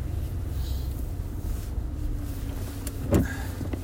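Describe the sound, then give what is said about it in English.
Car interior while driving, a steady low engine and road rumble that persists throughout, with a brief sharper noise near the end. “is being recorded in my vehicle as I go to the firehouse today.”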